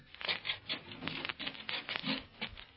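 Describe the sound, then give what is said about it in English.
Feet scrape to clear off mud, a faint run of many rough, rasping strokes in an uneven, repeated rhythm, with no voices over it. “Here we are now. Come on. Scrape the mud off your feet.”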